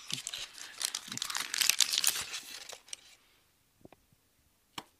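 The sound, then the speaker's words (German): A piece of chocolate that has gone warm is broken off: busy, loud crinkling and rustling handling, then near-quiet with a few soft, dull clicks instead of a sharp snap. “Man sieht, die Schokolade ist schon etwas wärmer geworden. Sie haben jetzt ein Stück wieder abgebrochen und das knackt natürlich dann nicht so.”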